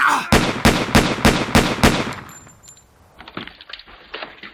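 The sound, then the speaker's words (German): A rapid series of sharp gunshot-like cracks from a radio drama, about six evenly spaced loud bursts, followed by quieter scuffling and rustling noises with a faint high tone. “Hat die jetzt geschossen?”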